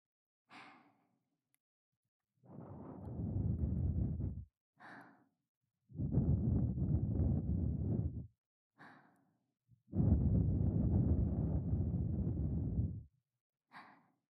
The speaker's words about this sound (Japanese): こうしてふうふうされても